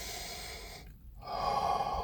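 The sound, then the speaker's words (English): A person breathes with a soft, hissing rush of air, pausing briefly before a louder, fuller breath follows. “I'm going to breathe.”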